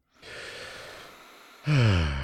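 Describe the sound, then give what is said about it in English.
A deep breath: a long, airy inhale lasting well over a second, then a louder, voiced exhale like a sigh that fades out at the end. “let's wind down. Let's take a deep breath.”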